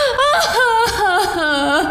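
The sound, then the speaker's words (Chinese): A woman crying after drinking, her voice wavering in a high, strained sob that bends up and down in pitch for about two seconds without any words. “你哭了啊！”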